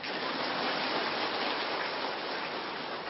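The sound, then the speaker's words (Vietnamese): Dense, steady applause from a large audience at a Buddhist retreat at Hoằng Pháp pagoda. The clapping blends into a continuous, hiss-like wash that stays loud and even throughout, with no voices. “Hiểu rồi, vỗ tay khen mình đi.”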